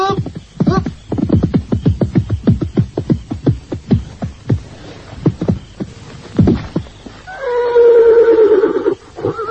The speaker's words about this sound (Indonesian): Aku mendengar langkah kuda menuju kemari.